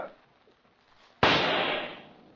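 A single pistol shot fired at an insect during a wager cracks out as one sudden loud burst after near quiet, its noisy tail fading over about a second.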